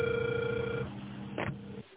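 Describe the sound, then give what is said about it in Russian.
A telephone rings over the line while calling a subscriber who does not answer: a steady, thin ringback tone holds for just under a second and stops, followed by a short muffled burst of noise. “Пока что абонент не отвечает. Нет. Пока я звоню дальше”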